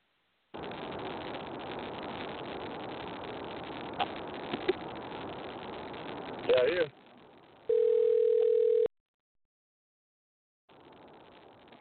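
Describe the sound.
A telephone tone sounds while a call is placed: several seconds of steady, loud line hiss and noise, then one clean, steady mid-pitched tone lasting about a second, followed by silence and a return of faint hiss.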